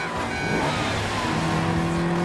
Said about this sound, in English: The Ferrari races along the country roads, leaving the castle behind, passes a windmill and comes up behind a truck transporting bales of hay.